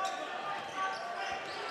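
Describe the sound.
Basketball dribbled during a high school boys game between Exeter and Twin Valley, a few soft bounces under steady gym noise.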